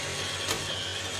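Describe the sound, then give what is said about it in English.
A robot vacuum cleaner runs with a steady, faint mechanical whir over a low hum. The sound stays even and continuous from start to end, with no talk. “So you're hearing something in the background. What you're hearing is the Roomba.”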